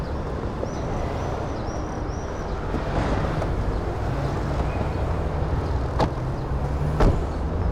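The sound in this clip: People climbing into a teacher's car: a steady rumbling background, then two sharp clunks near the end that fit doors or the car body being handled.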